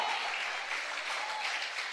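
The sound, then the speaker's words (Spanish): Brief, fairly soft applause from an audience during a Spanish-language church service, a short, even patter of many hands with no voices standing out. “Dele un aplauso al Señor, hombre.”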